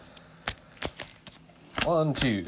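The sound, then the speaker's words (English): Playing cards are drawn from a deck, making a few crisp, sharp flicks and slaps, followed by a voice talking. “I'm going to draw my 6 cards.”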